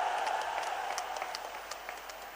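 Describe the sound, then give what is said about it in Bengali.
Audience applause at a political gathering in Kishoreganj, a faint, steady patter of many hands clapping that thins slightly as it goes on. “আজকে উনি কিশোরগঞ্জে এসেছে, একটা জোরে হাততালি দেন আপনারা দয়া করে একটা।”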